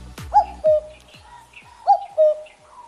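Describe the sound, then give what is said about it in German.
A cuckoo calling twice, each call a clear two-note phrase with the second note lower, over faint background sounds. “Das ist der Kuckuck.”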